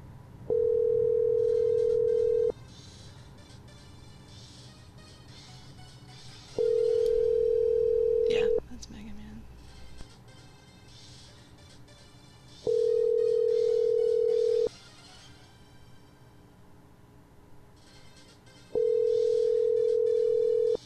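A phone's ringback tone plays while calling someone again: four steady, mid-pitched ringing tones, each about two seconds long, separated by roughly four-second gaps over a low background hum.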